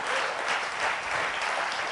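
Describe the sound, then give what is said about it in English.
Applause fills a church audience, steady dense clapping at a fairly even level from start to end, with no talk over it. “Yeah, we ought to clap for that one.”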